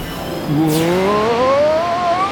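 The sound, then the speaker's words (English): A race car engine accelerates hard as the car speeds off, its whining pitch climbing steadily in one loud, continuous sweep, opened by a brief sweeping whoosh. “The last place racer has taken off at blazing fast speed. He's swerving all over the course.”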